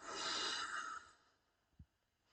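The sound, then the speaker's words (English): A slow, deep breath is drawn and released, a soft airy rush lasting about a second that fades into near silence, quiet overall. “We're going to begin, as always, with a nice deep breath in and out.”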